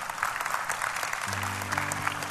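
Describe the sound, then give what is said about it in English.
A church audience claps for first-time visitors: dense, lively applause with many overlapping claps, joined halfway through by a low, sustained musical tone beneath it. “Give them a better hand clap than that.”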